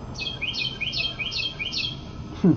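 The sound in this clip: A bird chirps: five quick, high chirps in a steady, even rhythm, fairly quiet, followed by a short low sound at the very end.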